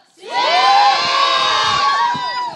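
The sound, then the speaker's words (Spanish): A crowd of concertgoers in the lobby of Sala Julián Carrillo cheers and whoops ahead of a Radio UNAM concert. High shouts swell quickly, hold loud and then taper off. “Para este concierto quisimos lucirnos y tenemos aquí reunido en el lobby de la sala Julián Carrillo a todo el público que vino esta noche, ¿es verdad?”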